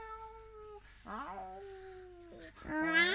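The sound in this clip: A human voice imitating an angry cat, with several strained, whining yowls and meows that end in a louder yowl sweeping upward in pitch.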